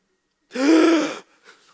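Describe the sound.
A sharp intake of breath imitated by a man mimicking his wife's reaction: one loud, breathy, voiced gasp of about three-quarters of a second, followed by a faint, short murmur.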